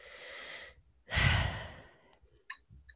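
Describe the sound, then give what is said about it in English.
A deep breath taken during a tea-sipping relaxation exercise: a soft, drawn-out inhale, then a stronger, breathy exhale lasting about a second, followed by a few faint clicks. “So go ahead and take a deep breath with me.”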